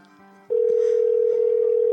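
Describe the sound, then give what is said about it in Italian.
A telephone line tone during an outgoing call cuts in abruptly after a brief quieter moment, then holds as a loud, steady, unwavering pitch to the end. “Io intanto sto chiamando, vai, vai.”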